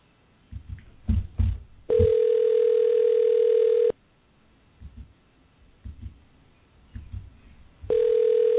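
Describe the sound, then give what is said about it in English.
Telephone line tones sound while a call is being connected on live radio: two long, steady, loud tones, the first lasting about two seconds and the second starting just before the end, with low thumps and rumbles in between. “So you're going to hear the dialing and everything, and hopefully we'll be able to connect him.”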